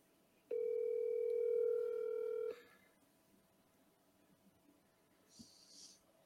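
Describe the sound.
Ringback tone of an outgoing phone call that goes unanswered before voicemail: a single steady electronic tone of about two seconds, then a quiet line hiss with a faint breath or sniff near the end.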